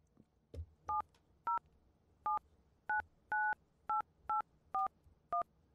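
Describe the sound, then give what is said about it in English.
Telephone number being dialed on a keypad: a quick series of many short, clear two-tone beeps in an uneven rhythm, one held slightly longer, with faint background hiss between them. “So shall we call the number? Here, let's call the number.”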